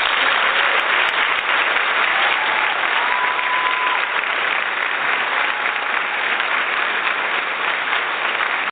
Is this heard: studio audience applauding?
yes